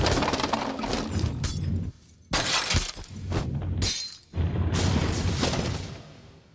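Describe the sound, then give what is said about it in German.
An armored police vehicle deliberately rams an overturned car, producing loud crashing and glass shattering in three long, dense bursts of noise separated by brief lulls. No voices are heard. “Ein Panzerfahrzeug der Polizei fährt absichtlich in ein umgekipptes Auto.”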